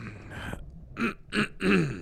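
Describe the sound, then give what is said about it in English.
Someone clears their throat in three short, rough voiced bursts, the last one longest, after a stretch of low background noise. “let me clear your throat, Colonel.”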